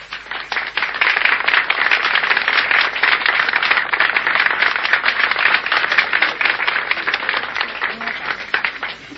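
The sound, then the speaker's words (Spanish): A crowd applauds in steady, dense clapping that holds an even loudness without pause. “Gracias por los aplausos, a pesar de que no son para mí.”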